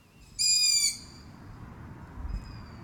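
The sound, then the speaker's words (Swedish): A young long-eared owl calls from woodland for its parents, a loud, high, squeaky whistle lasting about half a second, followed near the end by a much fainter second call over a low rumbling background. “Ja, det är nog hornuggleungar som sitter utspridda i en skogsdugge och ropar på sina föräldrar.”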